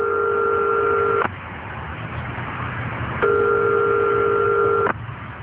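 A telephone rings on the line as a call goes unanswered: two loud, steady two-pitch ringing tones with a longer silent gap between them, heard alone.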